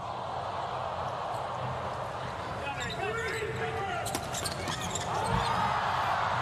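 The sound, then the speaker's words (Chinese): A volleyball bounced on the court before a serve in an international match against the US team. A few sharp thuds come in quick succession under continuous commentary and steady background noise. “莱昂来发球”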